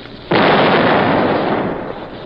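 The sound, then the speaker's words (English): An artillery gun fires a shell with a single sudden, loud blast that keeps roaring and slowly fades over about two seconds. “Reload. Right. All set. Ready. Fire.”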